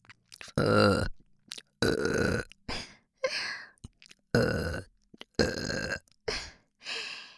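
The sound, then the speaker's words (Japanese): A person produces a series of loud, deep burps of varying length, separated by short pauses, with a few small ones at the start. “じっくり溜める一発と連続ゲップのどっちが好きですか？こんな感じの。”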